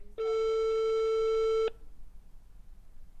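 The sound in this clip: A telephone tone after a call to a grandmother cuts off: one steady, buzzy, high tone held for about a second and a half, then it stops abruptly and leaves faint background hiss.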